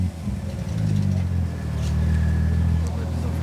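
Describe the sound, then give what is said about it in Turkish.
A car engine runs at a steady idle with a deep, even rumble while the steering is turned, during a police check of its tyres, rims and lowered suspension, with talk over it. “Motoru tekrar çalıştırıp direksiyonu tamamen sola çevirir misiniz lütfen?”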